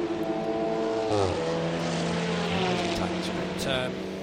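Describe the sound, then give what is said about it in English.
The KTM GTX Concept race car exits the first chicane at Monza during the Hankook 12-hour race. Its engine note climbs in pitch as it accelerates, beneath ongoing commentary. “Here's the KTM GTX Concept out of the first chicane.”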